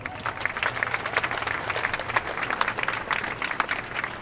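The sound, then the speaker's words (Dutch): Warm applause from a crowd at a Gaza demonstration on the Dam square: dense, steady clapping that holds at an even level for several seconds without pause. “Geef maar alsjeblieft een warm applaus.”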